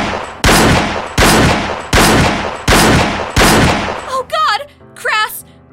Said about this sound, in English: I think you shot me.